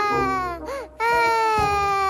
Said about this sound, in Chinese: 怎么有小孩的哭声